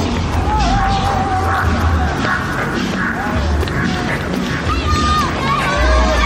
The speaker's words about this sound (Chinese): 前面的群众又多起来了，很多人在旁边加油。